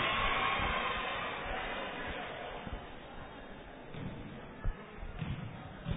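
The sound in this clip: A basketball player dribbles the ball before a free throw in a game, producing a few faint, dull bounces under a steady hiss.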